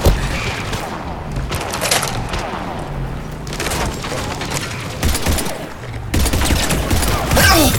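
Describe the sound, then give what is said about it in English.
Heavy gunfire rages in a science-fiction video game battle at a spaceport: dense, continuous bursts of shots mixed with booms and cracks, loud throughout with only brief dips. “Taking heavy fire.”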